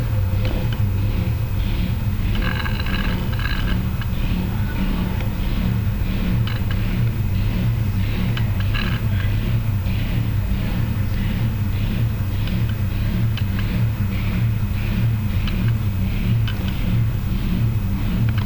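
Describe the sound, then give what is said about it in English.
An engine runs outside where a driveway is being laid. It gives a continuous low droning rumble with a faintly pulsing vroom, steady and unbroken for the whole stretch. “That funny vroom vroom vroom noise outside is something to do with somebody's putting a drive down, I think. And they've got some sort of engine going.”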